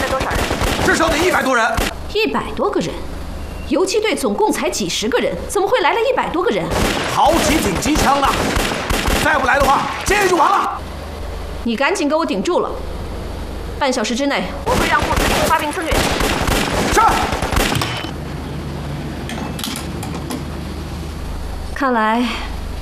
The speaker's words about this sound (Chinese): 好几挺机枪的，再不来的话，今天就完了。